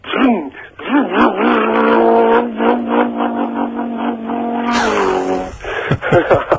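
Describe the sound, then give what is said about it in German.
A man's voice imitates a high-revving, air-cooled four-cylinder boxer engine accelerating on a highway: a sustained, buzzing hum with wobbling pitch that holds steady, then shifts to a harsher, brighter tone near the end. “Kannst du das Geräusch auch nachmachen? Ja, das ist ein hochdrehender, luftgekühlter Boxermotor, damals noch mit 4 Zylindern. Ja. Wenn der mal da über den Highway gefahren ist und auch mal hochbeschleunigt, das war dann so...”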